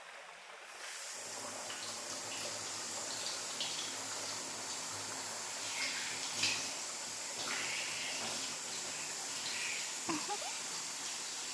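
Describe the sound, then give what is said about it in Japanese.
Running water rinses through hair in a steady, even hiss of flowing water that holds at one level throughout, with faint splashes here and there. “髪の毛を優しく溶かすように洗い流してっと。”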